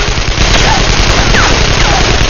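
Gunfire from combat shotguns as a blockhouse door swings open, a very loud, continuous barrage of overlapping blasts with no break in the noise.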